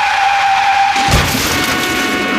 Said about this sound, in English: Oh gosh, what happened there? Somebody crash!